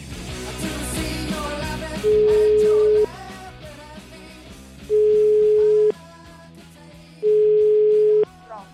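Telephone tones of an outgoing call: three steady, mid-pitched beeps, each lasting about a second with pauses between, sound loudly over a busy, continuous background.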